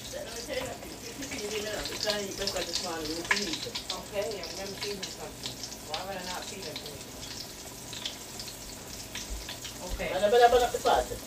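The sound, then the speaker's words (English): Sizzling of egg- and seasoned-flour-coated food cooking in a pot, a soft crackling hiss with scattered bubbling that grows louder near the end, while a person talks over it. “Coat it real good. And then, I'm gonna put it in the pot.”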